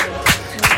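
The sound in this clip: Two sharp, close claps from a woman clapping into a microphone, brief and separated by a short pause.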